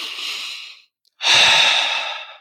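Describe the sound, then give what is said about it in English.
A deep breath, heard alone as two airy rushes of breath: a softer one, a brief silence, then a louder, longer one that slowly fades. “And you have the right to take a deep breath”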